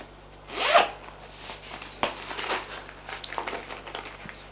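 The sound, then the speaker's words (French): A schoolbag zipper is pulled open in one quick rasping stroke near the start, followed by lighter rustling and small clicks as the bag is handled. “Il ouvre son cartable.”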